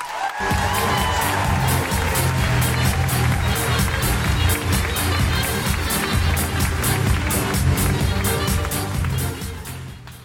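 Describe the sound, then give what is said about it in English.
Audience applauding and cheering at a comedy night in Edinburgh: loud, dense, continuous clapping with crowd noise for about ten seconds, easing slightly at the end. “Put your hands together and make incredible noises for Holly McNish.”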